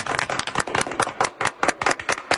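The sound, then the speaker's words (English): Small audience clapping, a run of many sharp, separate hand claps at an uneven pace, fairly loud, with no talk over them. “We got a clap. Homie. Yeah, there we go. Oh, yeah, you got a clap.”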